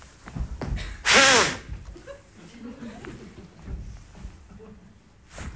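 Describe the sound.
A hard, forceful blow into a breathalyzer at a police roadside check: one loud burst of breath lasting under half a second, surrounded by quieter talk.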